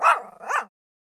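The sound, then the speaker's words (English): A family dog gives two quick, high-pitched yipping barks in close succession, each short and tonal, then stops into silence. No voices are heard. “She lived with her parents and a dog named Little Brother.”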